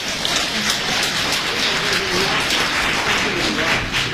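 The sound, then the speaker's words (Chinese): Audience applause for the accompanying band at a Beijing traditional opera and ballad-singing show, a dense, steady clapping that holds at an even loudness throughout. “建议我们把最热烈的掌声献给他们。”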